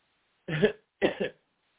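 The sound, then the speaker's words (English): Two short, rough bursts of throat clearing by someone pausing mid-talk, the second slightly longer and split in two, alone against silence. “have to clear my throat, pardon me.”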